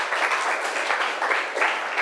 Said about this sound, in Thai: ปรบมือให้กลุ่มสองค่ะ